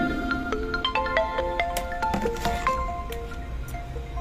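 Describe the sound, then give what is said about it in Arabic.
A mobile phone ringtone goes off during a religious lesson, a string of bright electronic melody notes stepping up and down in a steady tune, with a faint hum of background noise underneath. “يحط الهاتف هنا يحط صامت بارك الله لا تنسى.”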